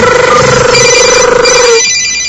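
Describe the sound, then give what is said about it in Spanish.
After a number is dialed, a telephone rings with a loud, warbling electronic tone pulsing rapidly, then cuts off shortly before the end. “Voy a marcar su teléfono, que ya lo tengo acá con la foto del demonio de Tasmania.”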